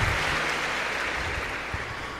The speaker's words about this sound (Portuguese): Uma salva de palmas para o nosso parco.